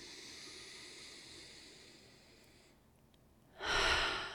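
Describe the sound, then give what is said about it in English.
A deep breath comes near the end as a sudden, loud, breathy rush of air. It follows a few seconds of faint low hiss. “I just want to take a deep breath with that for a moment.”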